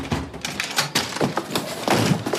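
A door lock being forced open during a police arrest in wartime occupied France, heard as many loud, rough bangs, rattles and scrapes of the door in quick succession, with a busy, continuous clatter throughout.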